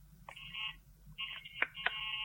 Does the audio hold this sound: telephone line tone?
yes